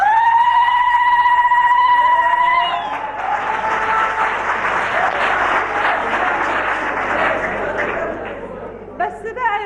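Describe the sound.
Zaghareet, a celebratory ululation for a bride, opens as a loud, high, sustained trilling cry. Clapping and lively chatter from several people follow.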